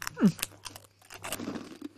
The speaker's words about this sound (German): wenn ich jetzt in die Kamera rein, ins Mikrofon reinschmatze.